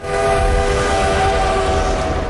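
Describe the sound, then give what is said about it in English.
A train rattling past on a track beyond snow-laden fir trees on a moonlit night, heard as a loud, continuous rumbling roar with steady droning tones running through it, and no voices. “The Polar Express rattles past on the track beyond the trees.”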